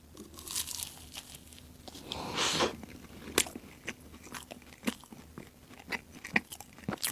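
Crisp crunching of a bite into a white, clam-shaped monaka wafer shell filled with clam tsukudani: a noisy tearing burst, then many sharp, dry crunches and chews at an irregular rhythm, with no talk.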